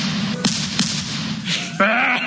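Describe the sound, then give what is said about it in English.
A shotgun goes off: a few sharp, sudden cracks cut through a constant background hum, spaced unevenly across the stretch. “I'm going to take my shotgun and shoot you here, Ivan.”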